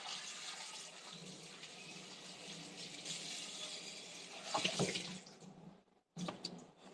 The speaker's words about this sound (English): Let me rinse it and I can put it to dry.